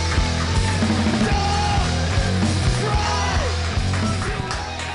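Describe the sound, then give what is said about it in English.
A crowd at a comedy show yells and cheers wildly as a drummer-comedian is introduced. A loud, continuous roar of shouts and whoops runs the whole time, with a steady low drone underneath. “Put your hands together and just go crazy right now like you haven't yet. Go nuts. Absolutely lose your minds.”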